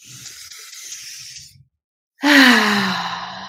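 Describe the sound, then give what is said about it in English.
A deep breath is drawn in with a long, airy hiss, followed after a brief silence by a louder, voiced sighing exhale whose tone sags slightly as it trails off. “let's just close out with one more deep breath in”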